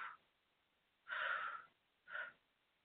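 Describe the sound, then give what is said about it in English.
Deep breaths taken on request during a prayer clearing: the tail of one breath, then two clear, airy breaths, soft and muffled with quiet gaps between them. “just take 3 deep breaths for me”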